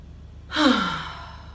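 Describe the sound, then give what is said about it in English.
A single deep breath drawn and let out through the mouth, a breathy rush that rises quickly, then falls in pitch and fades away on its own. “it's very long, drawn out inhales and a letting go of the exhale. And it sounds a little bit something like this.”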